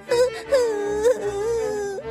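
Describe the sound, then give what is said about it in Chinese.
A performer voices a girl crying sadly: a wavering, moaning wail with a few sobbing swells that sags in pitch and carries on without a break. “海蒂听了这句话，竟然忍不住难过的哭了起来，泪水流在她的脸颊”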